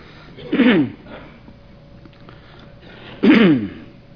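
A man clears his throat twice, two short rough rasping bursts a few seconds apart, with quiet background between them.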